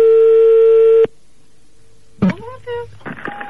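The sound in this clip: A telephone tone sounds on an outgoing call: one steady buzzing tone lasting about a second, then a short silence, then a voice speaking.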